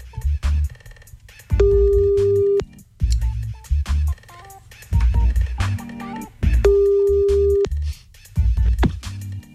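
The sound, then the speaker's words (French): A telephone line ringing for a late-night radio call: two long, steady ring tones several seconds apart over a rhythmic music bed, with no one answering yet. “Donc, on y va, on appelle maintenant, 2h33 du matin, on appelle grâce au numéro que vous envoyez”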